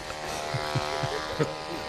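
Motor hum of an electric suction pump attached to a nipple, steady and buzzing, with a few soft rhythmic pulses as it draws suction.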